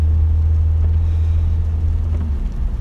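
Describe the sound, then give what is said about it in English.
A car driving gives a constant low rumble and droning hum, loud and even throughout, with a faint windy hiss above and no talking. “as of right now, I'm driving to Elisa's job. I'm gonna pick her up over there.”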